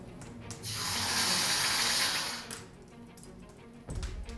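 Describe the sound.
A hot forged metal object is plunged into water, giving a loud, steady hissing sizzle that lasts about two seconds and then fades. A short low thud follows near the end.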